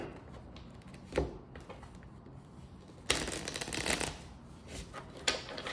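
Tarot cards being handled and shuffled during a weekly reading, with soft papery rustling and a few louder bursts of riffling.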